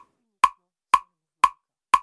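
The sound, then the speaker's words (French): A metronome beats time for dance choreography with four crisp, bright ticks, evenly spaced about half a second apart, each standing alone against silence. “ce qu'on entend, c'est le bruit du métronome dans les composition chorégraphique de Noé Schkoll”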